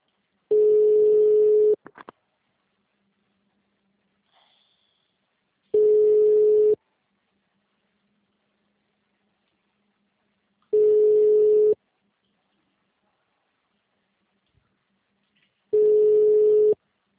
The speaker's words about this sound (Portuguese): Eu vou transferir a ligação